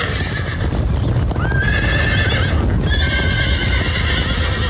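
A white horse neighs and whinnies over a steady, continuous clip-clop of hooves, with the high whinny rising sharply partway through and sounding again later, loud and without talk.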